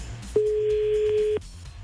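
A telephone ringing tone while calling someone: a single steady, mid-pitched beep lasting about a second, clear and alone, with quiet pauses before and after.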